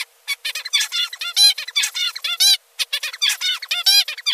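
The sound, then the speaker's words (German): Zebra finch father's call, the adult male's song-model call: a rapid run of many short, nasal, high-pitched calls with buzzy harmonic overtones, delivered in quick bursts with brief gaps and no voices. “Ein typischer Ruf eines Zebrafinkenvaters klingt so.”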